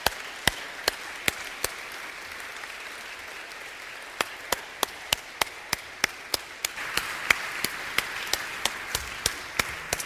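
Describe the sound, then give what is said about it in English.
An audience welcoming four mothers onto a stage gives scattered, sharp hand claps, at first spaced out and then quicker and more frequent, over a low background hiss. “Would you put your hands together and welcome our four moms this morning? Come on up, ladies.”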